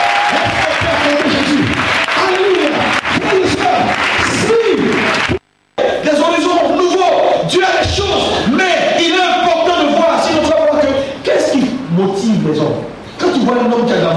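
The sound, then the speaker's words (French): Crowd cheering and applauding in acclaim of Jesus at a French-language sermon: loud, dense clapping mixed with whoops and shouts, a brief near-silent gap partway through, then the roar resumes and gradually thins. “Est-ce qu'on peut acclamer Jésus?”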